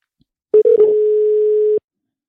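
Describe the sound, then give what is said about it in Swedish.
A telephone call being placed: a few short noisy clicks give way to a steady single-pitch dial tone lasting about a second, cut off by a final click. “Vi börjar med att ringa upp Jocke, så ser vi vad som händer.”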